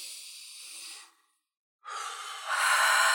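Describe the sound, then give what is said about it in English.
A person takes one deep breath in and out, heard as two airy breath sounds split by a brief silence. The second is longer and grows louder toward its end, with no talking. “No one had to say, hey, remember to breathe. Okay. Right. Okay. But take it just for the hell of it right now. Take a real deep one.”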